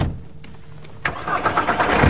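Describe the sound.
A car engine starts up, catching suddenly with a burst of noise and then settling into a steady, rumbling run over the background hiss.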